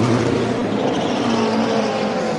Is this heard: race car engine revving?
yes